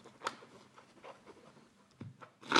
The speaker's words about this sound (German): Jetzt werden die Karten erstmal gemischt.